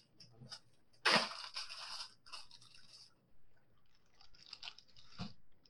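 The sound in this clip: Chewing of orange-flavored Swedish Fish gummy candy: a few moist, crunchy bursts, the loudest near the start and another near the end, with quieter mouth sounds between and no talk.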